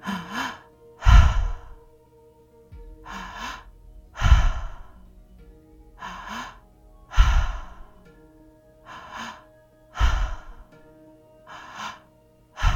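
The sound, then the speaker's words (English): Slow three-part breathing during a relaxation exercise. Several unhurried cycles pair soft inhales with louder, airy sighing exhales at a steady rhythm, under a quiet sustained tonal background. “when you're ready, let's begin the breath again for another round, that three-part breath.”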